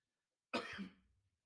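A single short, faint cough bursts out alone, caused by a tickle in the throat, then trails off into a raspy clearing of the throat.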